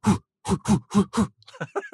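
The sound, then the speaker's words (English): A voice imitates God exhaling to blow birds away with five short, breathy, voiced puffs in quick succession. A few brief softer vocal sounds follow. “Literally, it means to blow out or exhale. So we're imagining him going like,”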